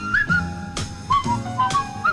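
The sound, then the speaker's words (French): Someone whistles a cheerful tune, with clear, high notes stepping up and down in a lilting rhythm across a short phrase. “Je repars en sifflotant.”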